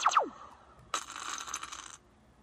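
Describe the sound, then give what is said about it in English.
A block in a video game being hit by a mini laser: a short descending chirpy zap first, then a bright, buzzing electronic crackle that holds steady for about a second before cutting off. “So this is the sound of the mini laser, and this is the sound of one of the block types getting hit.”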